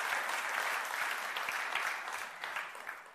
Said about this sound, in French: On va acclamer le nom de Dieu pour David.